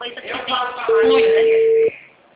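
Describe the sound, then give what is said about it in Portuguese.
Ringback tone of an outgoing telephone call: one steady, level, mid-pitched tone lasting about a second, following a stretch of talk and dropping to quieter sound after. “Eu tô ligando pra ver se me atende.”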